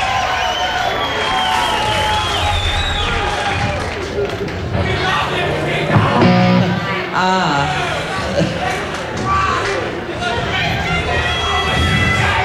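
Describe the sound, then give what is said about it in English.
Live show audience cheering and shouting wildly, a dense roar of crowd noise and whoops that continues under voices talking throughout. “What an audience we got tonight. Yeah. Yes, I think they're a little wild.”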